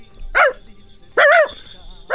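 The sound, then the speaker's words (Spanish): A child's voice imitates a dog barking, giving two short, loud, harmonic woofs about a second apart, followed by the start of a third that is cut off at the end. “Repite conmigo. Quiero que digas, hazle como el perro.”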